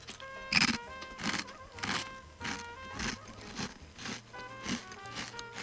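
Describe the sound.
Crunchy seaweed-flavoured snack being chewed: a steady run of many dry, crackly bites repeating about twice a second, moderately loud, with no talk over them.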